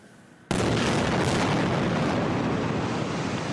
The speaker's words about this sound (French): Plusieurs sites stratégiques de Gaza ont été visés ce dimanche par des tirs de roquettes israéliens, comme ici sur la Banque nationale islamique